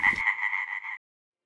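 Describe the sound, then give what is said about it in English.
A frog croaks in a single sustained, buzzing call of about a second. The nasal, mid-high tone has a gently pulsing texture and cuts off abruptly into silence. “Is that croaking?”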